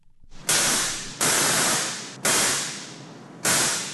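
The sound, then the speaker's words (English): A large replica Tesla coil, caged and suspended above a brewery production floor, discharges in four loud, harsh crackling buzzes, each starting abruptly and fading slightly before a short gap. “That's the sound of a Tesla coil. This particular one, a rather large replica, is housed in a cage and suspended above the floor of the production plant at Bristol Brewery in the Ivywell building.”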